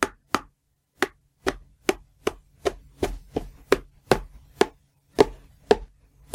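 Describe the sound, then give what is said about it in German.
Butter is chopped into small pieces with a knife: a steady run of many sharp, crisp chops in a fairly even rhythm, with short silences between strikes. “Und jetzt hackst du die Butter in kleine Stücke.”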